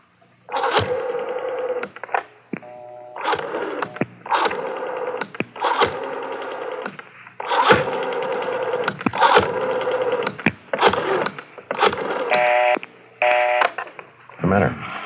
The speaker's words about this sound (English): I better try that call. Yeah, well, dial 9 first.